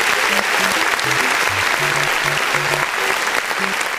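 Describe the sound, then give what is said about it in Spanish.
Strong, continuous applause in a studio welcoming a guest onto a show, a thick wash of clapping with a low stepping musical line playing beneath it throughout. “De inmediato recibimos con un fuerte aplauso”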